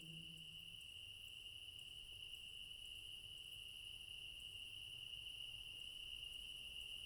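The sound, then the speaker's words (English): Crickets chirp softly in a continuous, even, high chirring that holds unchanged throughout. “Listen to the soft symphony of crickets playing just for you.”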